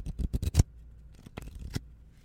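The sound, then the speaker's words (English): A deck of playing cards being shuffled, heard as two quick clusters of crisp, papery snaps and rustles separated by a short pause, fairly loud and with no voices. “Let me just do a nice little shuffle here. Get you guys some card ASMR.”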